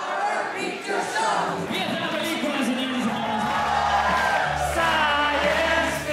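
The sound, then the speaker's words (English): Theater audience singing along and shouting during a Rocky Horror Picture Show screening in Barcelona, Spain: a loud mass of voices with whoops and yells, sustained throughout. “Here's a clip from a video of an audience singing along to the Rocky Horror Picture Show in Barcelona, Spain.”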